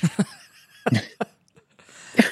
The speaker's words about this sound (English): I've had this cough for 3 months from allergies